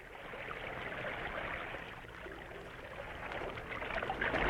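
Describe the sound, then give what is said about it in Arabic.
A small boat moves across open water toward a ship, with a steady wash of lapping, swishing water that swells slightly toward the end. No voices are heard. “فتى وحيد في قارب جديد يريد أن يصعد إلى السفينة. قارب في وسط الماء، من أين جاء؟”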